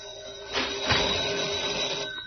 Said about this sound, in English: Say, is that your phone ringing? Sounds like it.